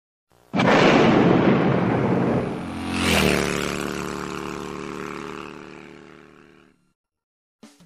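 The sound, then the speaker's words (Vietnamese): Explosions rocking Saigon burst in loudly and roar. A second surge hits partway through, then a long rumbling decay fades to silence. “Sài Gòn lại rung động vì những tiếng nổ mới.”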